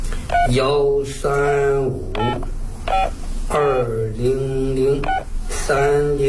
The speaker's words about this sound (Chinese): 想想，我打电话，我打电话，